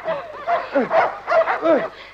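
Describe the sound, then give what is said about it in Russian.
Three big dogs bark and yelp as they chase a fleeing man, a rapid, uneven series of loud, sharp barks with a few higher yips mixed in. “За ним бегут три большие собаки.”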